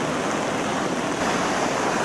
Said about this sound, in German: Mühsam kämpfen sich die Einsatzkräfte durchs Wasser.